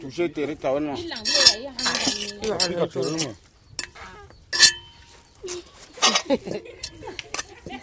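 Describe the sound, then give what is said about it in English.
Wooden spoon stirring a metal pot while a family meal cooks in a camp. Uneven scraping strokes and a few sharp clinks follow a voice talking at the start. “She's stirring a metal pot with a wooden spoon.”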